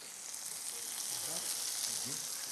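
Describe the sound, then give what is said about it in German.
Parmesan cheese fries in a pan with a continuous, even hiss of sizzling fat, fairly quiet, with soft talk faintly underneath. “Und jetzt drehe ich das kurz um und brate den Parmesankäse mit.”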